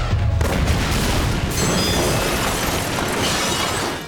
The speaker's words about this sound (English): Control panel, fire missile.